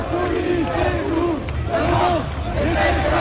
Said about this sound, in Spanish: este es el sonido de Lyon, donde ha habido protestas